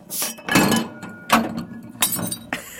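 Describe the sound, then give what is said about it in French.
A drinking glass falls and breaks during a craft beer tasting. Several bright, clinking crashes and knocks come in uneven succession, loud against a quiet background. “Il y a un verre qui est tombé.”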